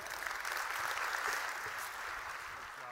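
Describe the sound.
Applause from an audience welcoming a speaker back to the stage: brief, dense, steady clapping that thins slightly toward the end.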